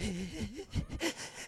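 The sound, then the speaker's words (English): A voice imitates the strained wheezing of a struggling runner, with wavering, whiny vocal tones broken by short raspy breath bursts in an uneven rhythm. “I would always come in like close to last and I would like have that like wheezing like”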